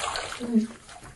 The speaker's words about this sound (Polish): muszę zakręcić wodę